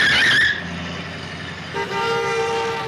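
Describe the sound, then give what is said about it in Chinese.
A car horn blares as a vehicle nearly crashes into them, a loud sustained tone whose pitch shifts partway through and holds to the end, with no talk over it. “我看到那个车了，不过那个车差一点就撞到我们了。”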